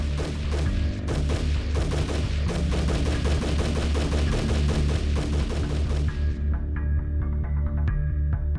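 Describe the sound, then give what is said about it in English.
Rapid gunfire from a Bushmaster semi-automatic rifle during a school shooting: many loud, sharp shots in fast succession for about six seconds, then the firing stops and a steady ringing hum remains. “They're still shooting. 154 rounds from a Bushmaster's semi-automatic rifle.”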